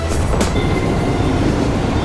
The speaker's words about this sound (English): Sorry, this is the employee train, fellas. We're gonna have to throw you off.